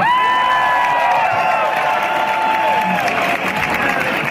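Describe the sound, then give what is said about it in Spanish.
An audience at a live music performance cheers and applauds, with loud, continuous clapping and shouted cheers holding steady throughout. “Y claro, el público estalla, se lo agradece.”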